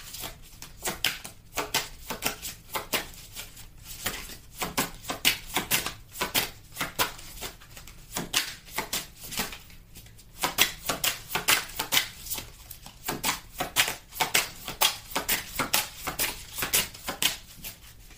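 Playing cards are drawn and handled from a deck, giving many quick papery flicks and snaps in an irregular rhythm that runs throughout.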